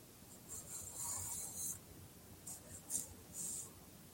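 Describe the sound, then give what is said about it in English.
Faint scratching of a pen drawing a cartoon of a tall alien on paper, soft strokes in short bursts separated by pauses. “Let's draw a cartoon of an alien.”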